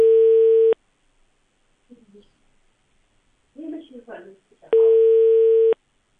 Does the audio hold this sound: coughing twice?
no